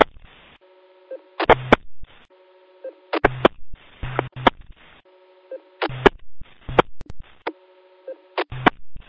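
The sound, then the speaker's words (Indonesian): Telephone tones while a call is placed to a mobile line: a steady multi-pitched tone that repeats in regular cycles, each ending in short, louder bursts, with no talk. “Hari kita telpon Red India Mobile.”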